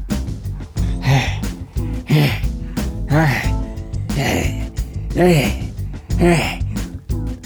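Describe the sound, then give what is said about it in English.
Voiced grunts from a wrestler making a noise with every exhale, a steady series of short, throaty bursts at roughly one per second. “he's one of those wrestlers who has to make a noise every time he exhales.”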